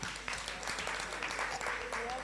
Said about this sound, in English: Please stand up. Let's clap for her.